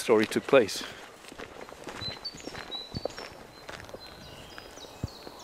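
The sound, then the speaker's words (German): Footsteps walk along forest paths near Oxbøl, making soft, irregular crunches and taps. A man speaks briefly at the start, then the steady walking continues alone at a moderate level. “Auf den Wegen und in dem Wald, durch den wir jetzt laufen.”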